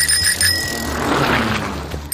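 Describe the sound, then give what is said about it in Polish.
A bicycle bell rings with a few quick, bright metallic chimes at the start, then the ringing gives way to a steady wash of broad noise. “To jest dźwięk dzwonka przy rowerze.”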